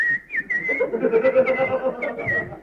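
A man whistles a tune while ironing clothes in a comedic story, a bright, wavering melody with short sliding notes and brief pauses, heard alone without talk.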